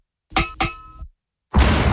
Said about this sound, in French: je voudrais féliciter quand même notre stagiaire qui nous a fait un montage d'une grenade qui rebondit très bizarrement